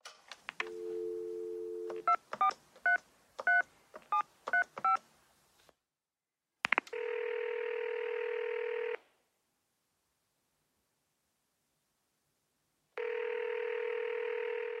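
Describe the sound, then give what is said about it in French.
A telephone dial tone, then a quick run of keypad tones as a number is dialed, followed by two long, steady ringing tones separated by silence on an outgoing call. “Bon, j'appelle la propriétaire.”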